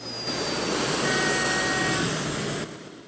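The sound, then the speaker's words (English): A jet aircraft's engines roar as it turns around and drives off the runway onto a road. The broad, steady whooshing rumble holds at an even loudness, then drops away near the end. “He turns his jet around and drives off the runway onto a road where cars are driving along.”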